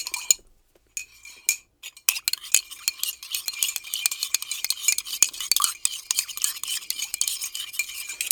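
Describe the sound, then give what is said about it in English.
Mixing Tang drink in a capped bottle gives dense, rapid clicking and rattling that runs steadily for several seconds after a short pause near the start. “Is everyone ready to mix the Tang? I'm putting the cap back on the bottle. All right, here we go. Let's mix up our Tang.”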